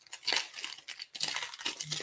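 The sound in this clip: A trading card pack wrapper is torn open and crumpled. A continuous run of crinkly plastic rips and crackles is briefly interrupted midway, then carries on at a fairly quiet level.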